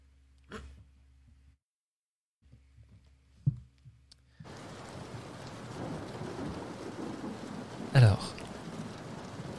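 Steady, relentless rain pours onto a paved car park at night. A dense hiss starts abruptly partway through after a few quiet clicks and knocks, and a brief low rumble like thunder swells near the end.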